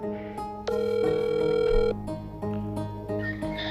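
Telephone dial tone while placing a call, a steady, clear tone held for about a second among other brief tonal beeps and notes, with no voices.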